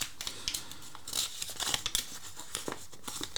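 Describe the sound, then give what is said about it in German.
Crisp crinkling of a folded paper slip being opened after it is drawn from a lot pot: many small, quiet rustles and crackles in an irregular rhythm, with no voices. “Ins Lostöpfchen gegriffen. Wieder sehr gut gefaltet hier.”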